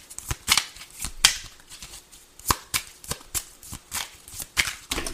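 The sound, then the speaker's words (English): Playing cards fall and spill from a deck, making soft papery flicks and slaps in an irregular series of many quiet clicks, with no voices over them. “all my cards just fell. Well, not all of them, but a lot of them.”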